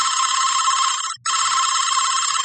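A telephone rings and goes unanswered: a loud, steady electronic trill broken once by a brief gap midway, then ringing on to the end with no voice.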